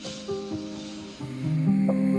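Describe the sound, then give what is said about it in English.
A slow, deep inhale taken to calm down, a soft airy hiss that swells louder toward the end over gentle sustained musical tones. “I need to calm myself down. Let's take a deep breath.”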